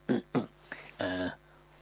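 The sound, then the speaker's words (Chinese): Someone clears their throat on a cold early-winter day, two short raspy bursts followed by a brief voiced utterance and a longer drawn-out vocal sound. “阿斯哈清了清嗓子”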